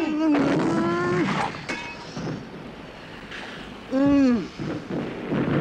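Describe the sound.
Artillery fire in a radio drama battle scene: a continuous loud roar of blasts under male voices shouting commands.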